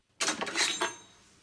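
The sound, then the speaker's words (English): A kitchen knife is picked up from a counter beside chopped vegetables, making a few quiet, bright metallic clinks and scrapes in quick succession. A faint ringing tail follows, with no voices. “Noticing some chopped vegetables on the counter, he reaches for a kitchen knife lying next to them.”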